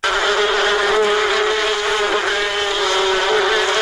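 Honeybees buzz at a bee farm in Kunduz province, Afghanistan, in a dense, steady drone. The humming swarm holds an even, loud tone throughout with no pauses.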